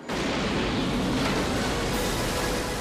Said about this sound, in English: And I was allowed to do all the jetpack flying as far as the sound of the rocket.